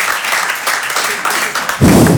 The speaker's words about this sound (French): Peut-être il y a des gens plus optimistes ce soir, par applaudissement sincèrement, qui pense que ça va bien se passer pour nous dans le futur?